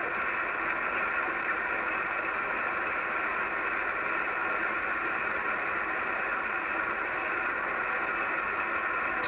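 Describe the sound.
Static hiss from a radio receiver as it is tuned down through the 7 MHz band: a steady, even wash of noise that continues with no clear signal or voices.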